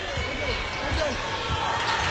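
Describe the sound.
Basketball dribbled with the left hand out to the top of the key during a game, a steady run of low thuds beneath continuous crowd noise and voices.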